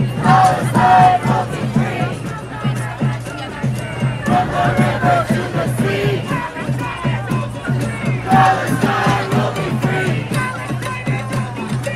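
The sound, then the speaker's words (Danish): Protesters chant a slogan outside a candidate's fundraising event in New York at a pro-Palestinian demonstration. Many voices shout in a loud, steady, rhythmic call repeated across the whole stretch. “Det kan jo ikke være nogen nyhed for nogen, at det er et kampråb, der bliver råbt ved den her type demonstrationer.”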